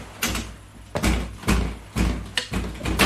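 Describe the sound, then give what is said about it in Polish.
Someone bangs hard on a door, landing several heavy, booming thuds at uneven intervals, each one loud and resonant. “Dlaczego dobija się pan jak wariat?”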